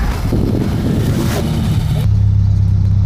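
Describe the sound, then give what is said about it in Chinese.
A car engine strains and revs as its wheels spin without grip on mixed snow and sand near a summit, a loud continuous roar with rushing wind noise, settling after about two seconds into a steady low drone. “转速上不来， 我就停车了， 没动力，雪太难走了，它空转打滑，沙子跟雪掺在一起，完全没有附着力。”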